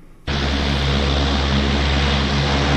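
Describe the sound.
An airplane landing by an airport, heard from homes bordering the airport fence: after a moment of quiet, a loud, dense engine roar starts abruptly and holds steady, with a low droning hum underneath.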